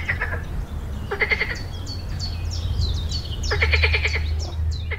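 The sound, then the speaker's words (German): Frogs croaking in short bursts of rapid, rattling pulses, with several bursts spaced over a few seconds above a steady low background hum. “Aber manche Tiere kannst du auch schon hören, obwohl du sie nicht sehen kannst. Zum Beispiel Frösche”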